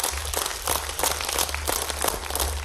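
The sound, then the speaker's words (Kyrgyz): An audience applauds at a poetry evening for young poets. Many hands clap in a dense, steady wash on their own, over a low hum. “Кол чабуулар менен тосо алыңыздар Максат Жангазиев.”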